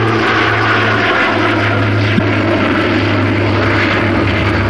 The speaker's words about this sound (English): The Britannia sets course from Bristol for its first ever overseas flight to Libya, only 4.5 flying hours away.